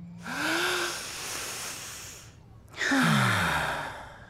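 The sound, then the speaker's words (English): A person takes a deep breath: a long, loud airy inhale, then a brief pause and a long, forceful exhale, heard alone without speech. “let's take a deep breath”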